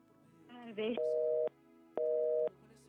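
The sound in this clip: A telephone busy signal after a dropped call sounds as two steady mid-pitched beeps of equal length with a short gap between them. A brief voice comes just before the beeps.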